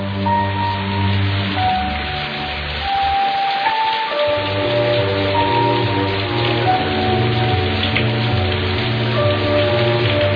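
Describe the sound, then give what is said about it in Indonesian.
Heavy rain pours over the city of Bandung at night, a loud, steady, dense hiss of downpour that holds without a break for the whole stretch. “hujan besar mengguyur kota Bandung malam itu”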